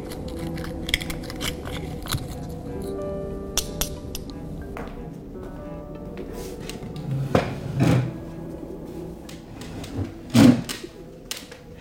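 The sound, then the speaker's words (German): Cracking and clinking of oyster shells being opened at a buffet: soft clattering throughout, broken by a few sharper, louder cracks near the end. “Er bedient sich nochmal ausgiebig an den Austern. Einziger Laut ist das Knacken beim Öffnen der Schalentiere.”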